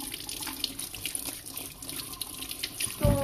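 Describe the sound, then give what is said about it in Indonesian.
Running tap water pours while hands are washed underneath, a steady splashing hiss heard alone, swelling to a heavier gush near the end. “sekarang kita akan mencuci tangan”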